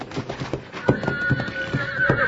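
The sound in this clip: A horse neighs and whinnies over rhythmic hoof clip-clops in an old western radio drama scene where a rider struggles to control the horse; the call is moderately loud and sustained.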